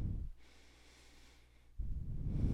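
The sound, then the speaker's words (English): A long, steady breath drawn in during a yoga session: a soft, airy hiss lasting well over a second, set between louder low-pitched noise before and after. “Long breath in.”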